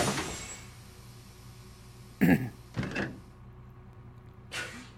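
Bus doors open and close in a bus-driving video game, heard as a few short, broad bursts of hissing noise separated by quieter gaps over a faint, low background.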